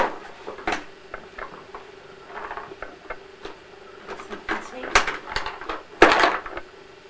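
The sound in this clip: A postbox being opened, heard as scattered light clicks and metallic rattles. Louder clanks come near the end, among faint background rustle.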